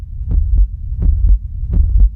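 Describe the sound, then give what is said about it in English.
Heartbeat thumping in deep, low double beats, three lub-dub pairs at an even, steady pace over a constant low hum. “Human sounds is filled with heartbeats”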